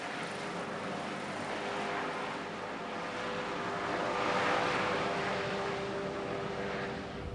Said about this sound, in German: Der Patient wird zur Partnerklinik nach Lea geflogen.